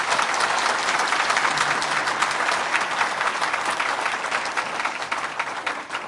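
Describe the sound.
Sustained applause from a church audience welcoming new ministers, a steady dense clatter of many hands clapping evenly throughout, moderately loud and alone without speech.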